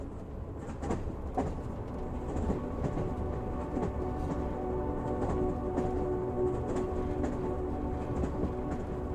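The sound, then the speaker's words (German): A train runs toward a tunnel into a large mountain, giving a steady, loud rumble with rattling and occasional sharp clacks throughout and no voices. “Schließlich nähert sich der Zug einem Tunnel, der tief ins Herz eines gewaltigen Berges führt.”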